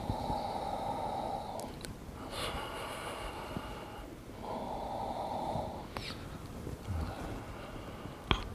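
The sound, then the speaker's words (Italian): Heavy breathing in and out during an exercise routine: a few long, rushing breaths alternate steadily with short pauses, loud and alone. “Inspiro, espiro, inspiro e giù.”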